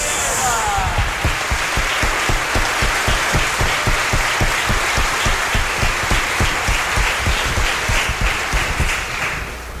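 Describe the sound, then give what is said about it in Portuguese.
An audience applauds the parish family ministry with dense, steady clapping that holds loud and even for nearly ten seconds. “aplaude com muita alegria e gratidão a nossa pastoral familiar. Viva a pastoral familiar! Viva os nossos casais!”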